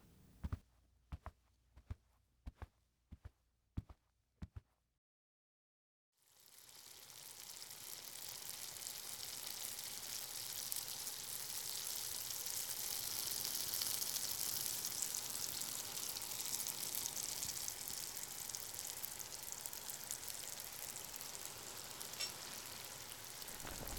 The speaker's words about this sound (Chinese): 我要开始做饭了，一会儿做熟了叫你。